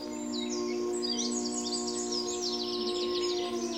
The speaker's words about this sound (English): You look at the sky and the clouds, you hear the birds singing,